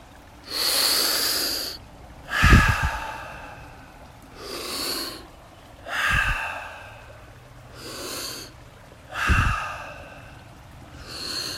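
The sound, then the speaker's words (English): Deep, slow breathing during a guided breathing exercise, with six soft, airy swells of inhaling and exhaling separated by quiet pauses, some breaths ending in a light nasal snort. “envisioning that fresh mountain air filling up every channel of the lungs, and then exhaling, letting something go.”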